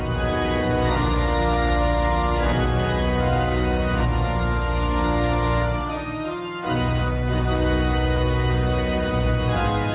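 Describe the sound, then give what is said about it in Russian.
A large pipe organ in Europe's biggest organ museum, in Unterschleissheim near Munich, plays full, sustained chords rich in overtones. The music is loud and continuous, with a brief dip before the chord swells again. “А теперь из городской ратуши Мюнхена предлагаю перенестись в самый крупный в Европе музей органных инструментов. Этот музей открылся буквально на днях в пригороде Мюнхена Унтершлайсхайм. Вот как звучит один из королей инструментов этой внушительной коллекции.”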